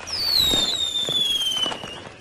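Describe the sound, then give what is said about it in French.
Christmas fireworks: a whistling rocket glides steadily downward in pitch over scattered pops and crackles, with a low rumble underneath, fairly quiet overall. “Dernière surprise, le feu d'artifice de Noël. Regarde par la fenêtre.”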